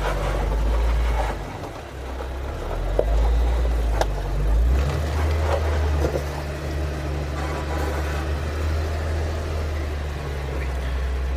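A Jeep's engine rumbles as it crawls over the GateKeeper rock obstacle in Chokecherry Canyon. The low, steady drone shifts in load, with occasional faint clicks and knocks.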